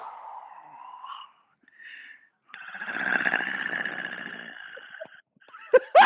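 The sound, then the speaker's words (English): A voice imitates heavy breathing over a phone line, a few soft, filtered breathy puffs, then a long, loud, raspy, distorted exhale, ending with a couple of abrupt sharp bursts. “I'll kind of creep in on the line, and I'll get real quiet, and I'll go, they'll hear me like breathing”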